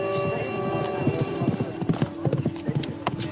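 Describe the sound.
Horse hooves clatter during a mounted archery contest at traditional nomad games beneath the Tien Shan mountains, a many-beat rhythmic clip-clop that grows sharper and more distinct toward the end over a steady background.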